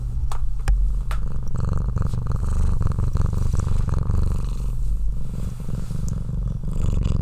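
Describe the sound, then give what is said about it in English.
A house cat purrs while kneading a person's feet. The purr is a low, continuous, loud rumble that holds steady throughout, with no talking. “Let's see if you can hear YB purring right now.”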